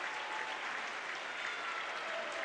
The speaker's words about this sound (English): Fans still standing and applauding Luke Cox, the 6'4 senior, hitting the 1,000-point mark.